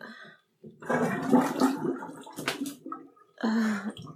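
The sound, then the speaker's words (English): Bathtub water drains after the plug is pulled, a loud swirling, gurgling rush that comes in bursts with short gaps. A final deep, hollow gurgle closes the run. “You pull the drain.”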